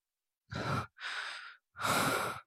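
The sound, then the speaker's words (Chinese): Three forceful deep breaths, each a loud, rushing breath lasting about half a second, separated by short pauses, with no talk. “何修义站在灯光下，用力深呼吸了几次。”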